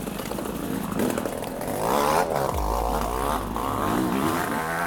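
Raspy, buzzing drone of a struggling two-stroke motorcycle in an off-road race, running with its front exhaust pipe ripped out of the barrel and unable to change gear; the engine note wavers unevenly throughout, with no voices.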